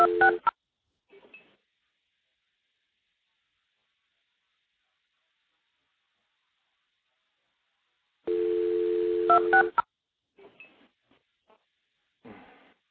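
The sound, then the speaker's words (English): Multi-frequency telephone tones dialed into a stack of phone trunks: a short tone burst, a long steady multi-tone signal, then several brief tone pulses, separated by stretches of silence. “It's actually MFing 2602 into the trunks to pick up the next one. We'll do it again. We're on our third stack.”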